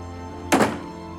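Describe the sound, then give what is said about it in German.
A single dull thunk as a front door, numbered 62, on a brown brick house is unlocked with keys and opened: one short, muffled knock over a steady low hum. “kramt einen Schlüsselbund aus der Hosentasche und öffnet eine Haustür mit der Nummer 62.”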